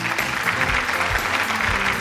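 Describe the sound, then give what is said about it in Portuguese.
Applause for a radio show crew member, continuous dense clapping that stays level without a break. “Uma salva de palmas pra ele, produção. Salva de palmas pro Batata.”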